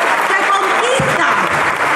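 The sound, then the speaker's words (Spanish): Audience applause at a political gathering, honoring a speaker: loud, dense clapping from a crowd that holds steady across the whole clip, with a voice briefly audible over it. “Un fuerte aplauso para él, un fuerte aplauso para Héctor Ortega”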